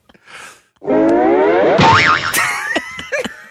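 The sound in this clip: A cartoon boing effect for a big bottom squeezing through a tight spot. A soft brief rustle comes first, then a loud, long springy tone whose pitch wobbles up and down. A few short popping accents close it.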